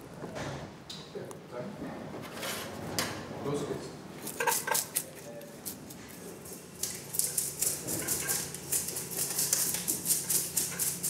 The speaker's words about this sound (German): Nach dem Fang müssen die Fischer die Fische entschuppen. Je nach Fischart kommen dabei unterschiedliche Schuppmesser zum Einsatz.